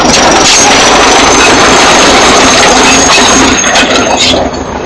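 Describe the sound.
A tractor engine roars while clearing a road as a crowd of people watches, a loud, steady, rough mechanical drone with grinding, rattling noise that holds throughout and eases slightly at the end.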